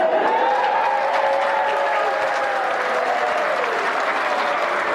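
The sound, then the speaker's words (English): A crowd cheers and applauds as a kapa haka group's name is called, producing a continuous, even wash of clapping with voices cheering over it. “Now, when they call out the participation, you make sure it's the loudest cheer, because that's the only time our name's going to be called.”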